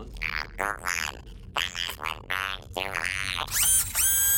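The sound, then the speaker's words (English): Laser shots fired by androids in a video game: a rapid series of loud, pitched electronic zaps with sweeping tones, ending in a brighter, buzzy sustained blast. “That's not burns, that's lasers! That's lasers, let's get the hell out of here.”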